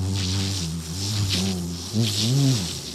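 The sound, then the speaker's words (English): Buzzing of bees: a continuous low droning hum with a wavering pitch that rises and falls, layered with a brighter hissy buzz above, lasting about three seconds. “And you can hear the buzzing of the bees.”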